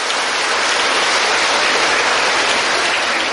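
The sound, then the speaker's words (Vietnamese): Hand clapping from a group, dense and continuous with no pauses, forming a loud, even wash of sound throughout. “À, vỗ tay.”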